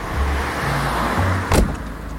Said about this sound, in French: On est en train de rouler le long de la corniche.